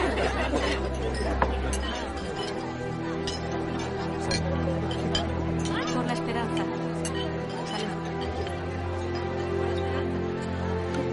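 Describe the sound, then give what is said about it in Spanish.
Children clink cups together in a toast, making many light, bright chinks scattered through a steady murmur of chatter and voices. “Los niños brindan con tazas.”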